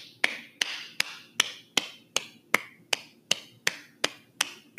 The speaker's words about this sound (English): That was a slow clap. Not the slowest. It was a moderate pace.